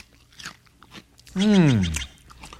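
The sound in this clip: Someone chews and eats freshly picked fruit with crunchy, wet bites, and a loud voiced murmur sweeps downward in pitch midway through.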